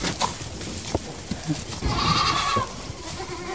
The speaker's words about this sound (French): Ah, on voit qu'on a des plus petites voix. Donc là, on a baissé en âge. Ce sont des chevrettes qui ont combien ?